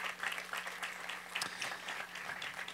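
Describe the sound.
An audience at a community day event applauds to welcome a speaker, a steady, dense run of many claps that holds at an even level throughout.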